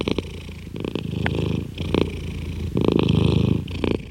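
A male cat purrs while sitting on a person's lap, a low, steady rumble that swells and eases with each breath, with a few brighter, louder pulses in a slow rhythm and no voices.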